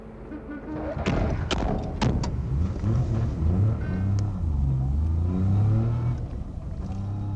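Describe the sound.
Car doors thump shut, a few in quick succession, as three people set off in an M-1 passenger car; its engine then starts, revs and settles into a steady, loud drone.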